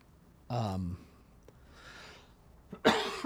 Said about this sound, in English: I'm just coughing into the thing.